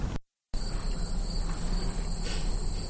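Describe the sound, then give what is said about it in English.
Afternoon ambience in a field in the Virginia countryside, filled with a steady high-pitched trill of crickets that runs throughout, broken only by a brief silent gap near the start. “This is a field out in the Virginia countryside. And this is just what you hear walking around in a backyard there on an afternoon.”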